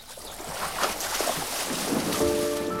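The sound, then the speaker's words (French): Canoes glide slowly on the Mississippi as paddles dip into the water, a steady wash of water and wind with soft splashy strokes. A sustained musical tone enters near the end. “Les canots glissent sur le Mississippi. Leurs pagaies entrent dans l'eau avec lenteur.”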